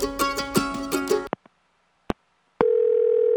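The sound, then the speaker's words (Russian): A telephone dial tone while a call is being placed: after music cuts off and a few short clicks sound, a steady, loud, unbroken tone holds to the end. “Настало время звонка. Позвоню Денису Косякову, пускай даст совет.”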